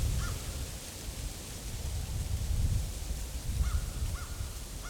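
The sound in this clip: Outdoor winter ambience on a small island with a few faint crow caws over a steady, low, rumbling wash of noise; no voices.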